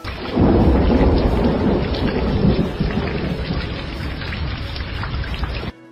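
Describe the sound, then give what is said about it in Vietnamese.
A thunderstorm with cold rain pours down as a loud, dense, steady hiss of heavy rain over deep rumbling thunder, holding strong throughout before cutting off abruptly near the end. “Mưa lạnh như băng quất lên người”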